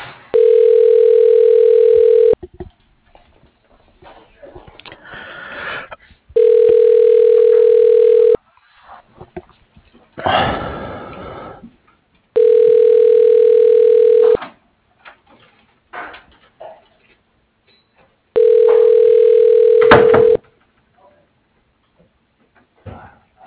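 Telephone ringing tone on a call placed to an office extension: four long, steady tone bursts of even pitch, each about two seconds, repeating at regular intervals with quieter, noisy gaps between them.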